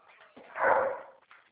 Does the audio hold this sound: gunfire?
no

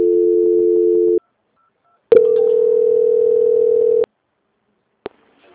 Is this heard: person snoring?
no

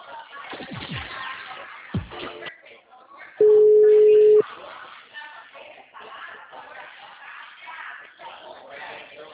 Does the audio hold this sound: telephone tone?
yes

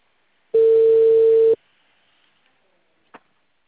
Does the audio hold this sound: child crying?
no

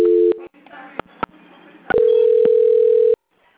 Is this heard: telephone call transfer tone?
yes

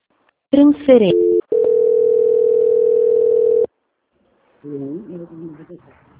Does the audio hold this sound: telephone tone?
yes

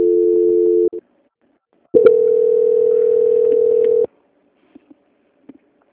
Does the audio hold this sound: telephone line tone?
yes

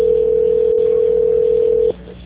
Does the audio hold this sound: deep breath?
no

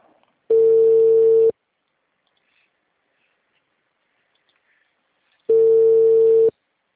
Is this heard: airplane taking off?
no

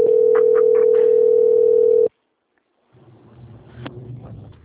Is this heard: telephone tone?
yes

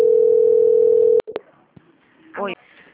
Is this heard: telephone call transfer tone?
yes

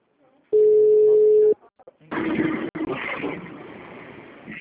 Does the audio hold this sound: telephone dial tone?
yes

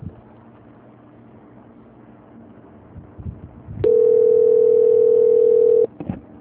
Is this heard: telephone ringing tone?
yes

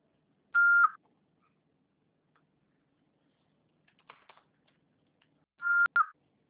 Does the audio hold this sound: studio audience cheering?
no

